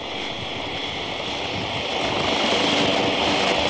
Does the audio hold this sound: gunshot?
no